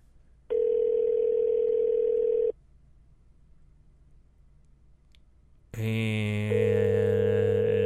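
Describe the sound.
A phone call's custom ringback tone: one steady electronic tone lasting about two seconds, then a quiet pause, then a louder, richer tonal sound that runs to the end.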